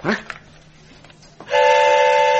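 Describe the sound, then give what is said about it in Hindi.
A train horn blares as a loud, steady, harmonic tone through the final second, after a short sharp burst at the start and a quiet stretch of faint rumble. “Raju ने train का डिब्बा बदल दिया। अब वो चतुर के साथ सफर करने निकल पड़ा।”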